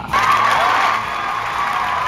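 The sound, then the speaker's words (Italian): Applause and cheering from an audience after a tribute speech: a loud burst of crowd noise and whoops that sets in at once and stays steady, easing slightly toward the end. “Auguro al signor Blatter salute e lunga vita, con la certezza che continuerà ad assistere come merita ai successi delle sue squadre e dei suoi giocatori preferiti. Applauso.”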